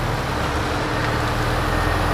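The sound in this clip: A car drives past low houses in central Hollywood, its engine and road noise forming a continuous, even rumble with steady loudness throughout.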